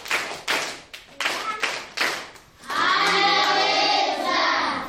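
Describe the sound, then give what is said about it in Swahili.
Hands clap at a church gathering of children to congratulate a teacher. It opens with a few separate, loud claps in a rhythmic pattern, then turns into a sustained, continuous stretch where voices ring out with it. “tupige makofi kwa sauti”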